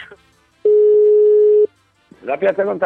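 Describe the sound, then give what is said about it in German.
Telephone tone while calling a pizzeria: one loud, steady, even-pitched tone lasting about a second, followed by a short silence before a voice starts speaking. “ich werde dann, glaube ich, mal in der Pizzeria anrufen.”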